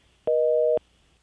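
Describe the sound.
Telephone line tone of an incoming call, a single steady half-second beep with two blended pitches, sounding alone over a faint background hiss.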